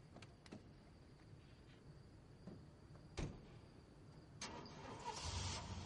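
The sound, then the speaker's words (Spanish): A car engine starts in a quiet night scene of a Spanish crime thriller film. Faint ticks and a sharp click come first, then a low rumble swells and holds loudly to the end. “Cuando vuelve a mirar ya ha arrancado el coche.”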